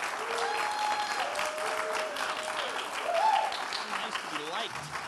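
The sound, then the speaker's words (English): An audience at a gathering applauds to welcome a speaker onto the stage. The clapping is dense and steady throughout, with a few raised voices calling out over it. “Spark, would you please, and especially for those of you who were there this weekend, give Mark Yaconelli a big, another warm welcome as he comes and shares.”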